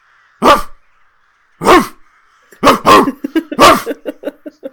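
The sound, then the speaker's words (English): A person imitates a dog barking, with a few loud separate barks followed by a quicker run of shorter, softer yips. “I'm just making bark sounds.”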